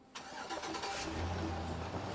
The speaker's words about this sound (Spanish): Al fin pudieron poner en marcha la pickup y los sujetos se fueron.